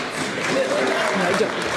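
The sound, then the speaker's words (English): Audience applause during a political speech about Scottish elections: a thick, continuous patter of clapping that runs evenly throughout at a fairly loud level. “I don't think the SNP should clap just yet.”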